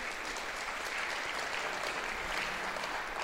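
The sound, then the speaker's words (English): Faint, thin applause from an audience in New Haven: a steady, low-level patter of clapping that holds evenly through the whole clip. “New Haven just gave me the lamest clap for that miracle ever.”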